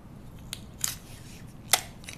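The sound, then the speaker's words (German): A piece of adhesive tape is torn off, heard as a few short, crisp ripping snaps spaced apart. The sharpest and loudest snap comes near the end, over a faint, quiet background. “nach einer Weile reiße ich ein Stück Klebestreifen ab und hefte die Karte an meine Bildschirmkante.”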